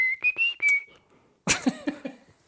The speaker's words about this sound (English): it's what I whistle when I relieve myself.